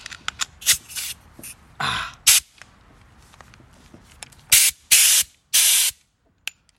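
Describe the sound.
Compressed air hose blowing during tire work: many sharp hissing blasts of varying length, some brief and faint, others loud and sustained for about half a second, separated by quieter background noise.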